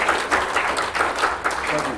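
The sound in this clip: Church audience applause after a guest's sermon, a brief burst of steady clapping with voices mixed in.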